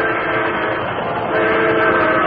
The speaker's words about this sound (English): The headlight of a fast-approaching train revealed the Lone Ranger